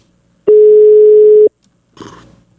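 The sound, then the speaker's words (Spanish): A telephone ringback tone sounds while someone is being called: a single steady, mid-pitched tone lasting about a second, followed after a short pause by a brief, faint muffled noise on the line. “En este momento le estoy marcando al Capi Ramón Valverde.”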